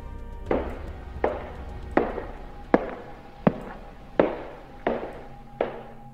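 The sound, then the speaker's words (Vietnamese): Footsteps pace back and forth on a wooden floor inside a house: eight evenly spaced, hollow knocking steps, each a sharp thud with a brief ringing tail, at a slow, steady rhythm. “Có những tiếng bước chân cứ đi đi lại lại, quanh quẩn ở trong nhà, vang lên trên sàn gỗ.”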